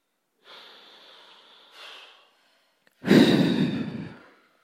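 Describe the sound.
Deep breathing during a relaxation exercise: a long, soft, airy inhale in two parts, a brief pause, then a louder, fuller breathy exhale that fades out, heard alone without talk.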